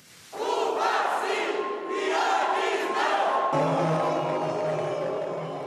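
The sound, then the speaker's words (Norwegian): Chanting from a small crowd of demonstrators protesting Cuban blogger Yoani Sánchez in Bahia. Loud, sustained massed voices shout in rhythm throughout, with a brief dip around the middle. “Ja til Cuba nei til Joani. Det er budskapet fra den lille gruppen som demonstrerer mot den cubanske bloggeren Joani Sanchez idet hun kommer til et debattmøte i byen Bahia.”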